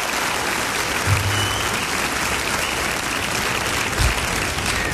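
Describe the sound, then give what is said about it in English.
An audience gives a performer on a music show stage a hand, with steady, dense applause holding at an even level for the full few seconds. “We give him a hand.”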